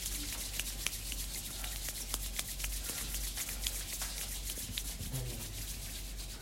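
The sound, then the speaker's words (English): Palms rubbed together as fast as possible during a yoga and mindfulness session, making a continuous rapid swishing friction that stays even in loudness throughout. “Rub your palms together as fast, as fast, as fast as you can.”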